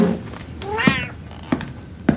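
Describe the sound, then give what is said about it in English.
A cat gives a single clear meow, a short harmonic cry that rises and then falls in pitch, standing out fairly loud against a quiet background. “Silly cat. You're just meowing because you're tired from all those people being in your space.”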